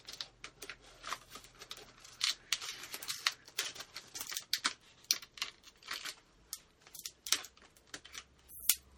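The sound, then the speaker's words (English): A package is being cut open. Soft, irregular snips, crinkles and scrapes of packaging material come in uneven bursts, fairly faint overall. “So I'm just cutting the package for this.”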